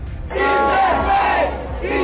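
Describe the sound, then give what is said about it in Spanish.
Supporters chant and cheer as a presidential candidate arrives to vote at a polling station. A loud, continuous crowd roar with sung, chanted voices starts after a brief quiet opening and holds to the end. “Aquí fue recibido por un grupo numeroso de simpatizantes que lo recibieron en medio de arengas y aplausos.”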